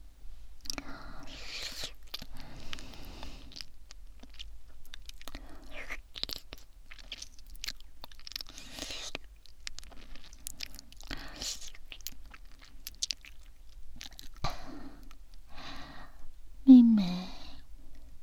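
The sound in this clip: Crunchy chewing and biting of tasty food, many soft moist crunches in an uneven rhythm over a long stretch, with a quiet voice murmuring now and then.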